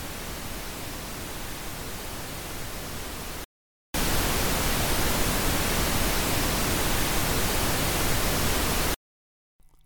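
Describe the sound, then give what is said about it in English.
Pink noise test signal in two steady hissing bursts separated by a brief silence, the second burst played 10 dB louder than the first and lasting longer, with no voices. “Here is the Pink Noise again, and then played a second time 10 dB louder.”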